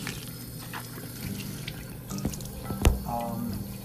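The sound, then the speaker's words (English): Hands being washed under a running tap: a steady wash of flowing water with scattered drips and splashes, and one sharp knock near the end. “Sorry, I'm just washing my hands.”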